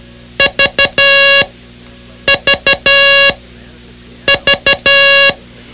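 Morse code letter V sent three times, each group three short beeps followed by one long tone. The tone is loud, buzzy and high, with even pauses between repetitions.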